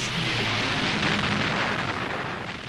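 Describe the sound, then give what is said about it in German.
Bombs explode during a German air force raid on a city, a continuous heavy roar of blasts with deep rumbling lows that stays loud throughout and eases slightly at the end. “Mit vernichtender Wucht trifft jede Bombe ihr Ziel.”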